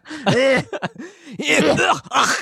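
A man makes rough, loud groaning and grunting sounds in a few separate bursts, some drawn out and strained, others short and clipped.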